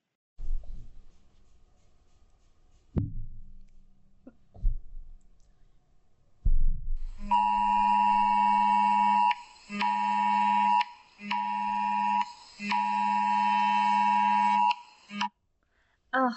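An Amber Alert emergency alert tone blares as a loud, harsh, buzzing two-tone sound in four long pulses split by short breaks, after a few soft thumps at the start.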